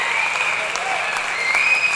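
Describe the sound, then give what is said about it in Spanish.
Applause from an audience rolls on steadily for about two seconds, an even wash of many hands clapping with a faint thin tone above it. “Aplausos para él, por favor.”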